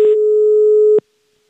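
Telephone busy signal while phoning someone: a single steady, loud tone that holds for about a second, then cuts off into silence.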